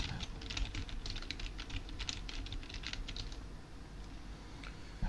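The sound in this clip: Typing a message on a computer keyboard: many quick, faint keystrokes in an uneven patter that thin out toward the end, heard alone with no talk.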